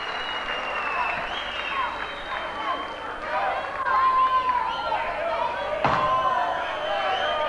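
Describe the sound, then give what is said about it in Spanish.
Loud, sustained audience applause at a 1998 live concert in a theater. Dense clapping is mixed with crowd shouts and whistling. “Un aplauso muy grande para León, ¿no? Impresionante.”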